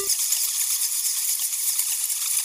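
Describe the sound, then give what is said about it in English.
A swarm of bats flies away in a steady, hissing flutter of wings, a dense rattling rush that stays fairly even in loudness throughout, with no voices. “He turned into a swarm of bats and flew away.”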